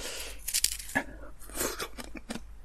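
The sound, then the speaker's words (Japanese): Someone eats a cola-flavoured Sacre shaved ice dessert, making crisp crunching and scraping sounds in many irregular short bursts, faint overall, with no talking. “サクレ、コーラ味を食べながらお送りしたいと思います。”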